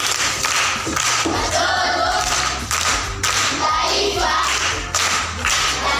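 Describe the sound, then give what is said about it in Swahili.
Applause and clapping for a primary school pupil who answered a proverb question, a dense, continuous patter of many hands throughout. “Makofi kwa mjomba.”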